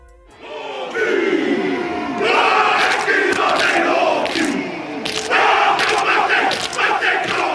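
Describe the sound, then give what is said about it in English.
A traditional Maori warrior dance is chanted by New Zealand's national rugby team: many male voices shout and chant together in loud, forceful, rhythmic bursts, with sharp accented cries over a continuous crowd roar throughout. “Behind me right there, the sound of a traditional warrior dance of New Zealand's native Maori people.”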